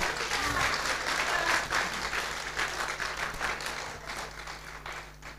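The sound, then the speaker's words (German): Audience applause at a Christian worship gathering: dense, steady clapping from a crowd filling the whole clip, loud at first and easing slightly toward the end. “Unseren Herrn mit einem Applaus.”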